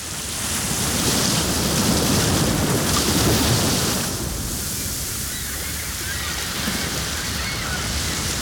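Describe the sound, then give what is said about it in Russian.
Gentle sea waves splash in a steady, continuous wash of surf, somewhat fuller during the first half before easing slightly. “Вы слушаете приятный, ласковый, расслабляющий плеск волн морей Арафурского, Альборан, Банда, Висаян, Камотес”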